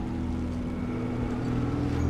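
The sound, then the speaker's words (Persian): Steady low drone of a boat motor running to haul something up, a faint, even engine rumble that holds without a break for the whole stretch. “بیا از موتور قایق واسه بالا کشیدنش استفاده میکنیم”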